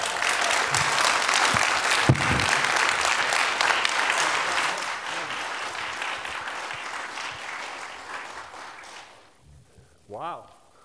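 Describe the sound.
Loud, steady applause from a church audience welcomes a guest speaker. It holds strong for several seconds, then fades, and a brief voice follows at the end.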